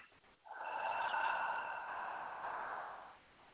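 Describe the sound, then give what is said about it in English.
A slow, long, controlled breath out through the nose or mouth: a single steady, breathy exhale with a soft tonal edge that rises in, holds evenly for a few seconds, then fades out, alone. “But then the exhale is going to be immediately following it. It's a slower, longer, controlled breath out through your nose or your mouth or both.”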